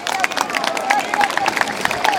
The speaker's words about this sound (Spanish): el aplauso quiere decir que están apoyando todas estas normativas en nuestro colegio